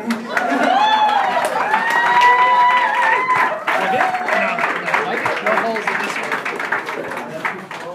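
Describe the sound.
An audience cheers and applauds to welcome a musician onto the stage at a Monday night show. Rising whoops and shouting voices come first, then a dense, steady wash of clapping that gradually thins out.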